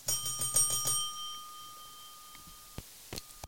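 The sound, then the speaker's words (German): A service bell from a game, rung in a quick series of bright metallic dings, then a long ringing tone that slowly fades, with a few soft knocks near the end. “Das ist die Passklingel. Service, Service, Service! Service bitte!”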